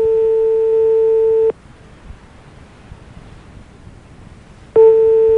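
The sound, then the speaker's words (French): A telephone busy signal plays as a steady electronic tone for about a second and a half. It cuts off for roughly three seconds of faint hiss, then starts again at the end. “Vous êtes seul chez vous, ça sonne ? Ça semble occupé chez vous ?”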